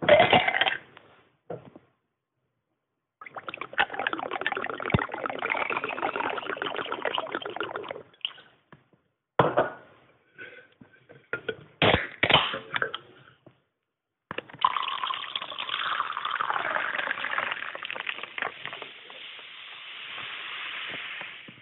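A rum and coke is poured, making fizzy, hissing bursts of liquid separated by short pauses. The longest, steadiest pour comes at the end.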